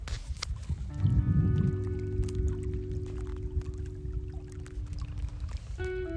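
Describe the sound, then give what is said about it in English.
Moving water on a hometown lake that was frozen over until a couple of weeks ago gives a steady, broad rushing wash. The sound swells briefly near the start, then holds at an even level to the end. “That's moving water. So just a couple weeks ago, this whole entire lake, my hometown lake, was frozen over.”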